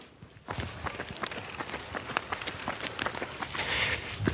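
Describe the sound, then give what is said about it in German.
Footsteps of people jogging through Beethovenpark in Sülz, a steady run of many rhythmic footfalls that continues without pause. “Sollen wir eine Runde joggen gehen? Machen wir so.”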